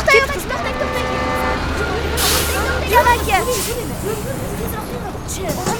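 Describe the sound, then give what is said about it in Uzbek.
A bus pulls in amid road traffic, with a harmonic horn-like toot early on and a steady engine and traffic rumble beneath people talking. “Avtobus kelyapti.”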